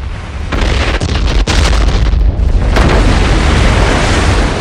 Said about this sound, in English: The massive explosion blows the sub to pieces.